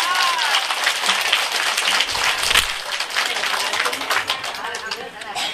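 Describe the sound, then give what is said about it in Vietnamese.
Audience applause at a Buddhist sermon: dense, steady clapping from many hands sustained for about five seconds, with a voice speaking over it. “cô nên cảm ơn cho chú Minh Đại một tràng pháo tay”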